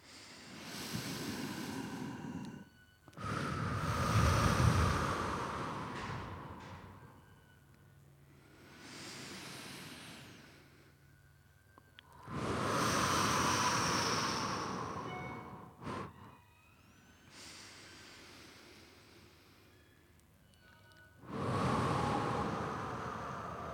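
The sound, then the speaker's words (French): Audience in the hall of a communal house breathing deeply in unison, three slow breaths, each a long rushing inhale and exhale like wind, swelling and fading with brief quiet gaps between. “Grosse ambiance ici dans le hall de la maison communale de Plainpalais et c'est parti, on respire. Trois respirations.”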